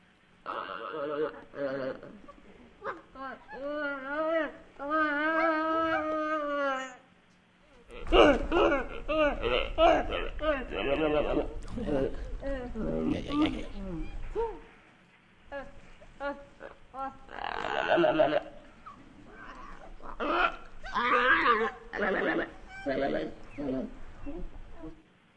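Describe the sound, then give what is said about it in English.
Several gelada monkeys vocalize in a back-and-forth exchange of melodic, wavering harmonic calls, soft coos and hiccup-like grunts, delivered in bursts of varying loudness separated by brief pauses. “if that was a conversation between two geladas, that would make perfect sense to me.”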